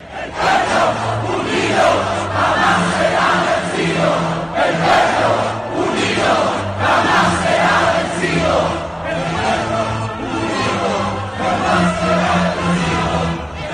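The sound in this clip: Chilean protesters chant a famous revolutionary protest anthem in unison during street demonstrations. Many voices shout the lines in a steady, repeating rhythm of loud bursts that carry on throughout.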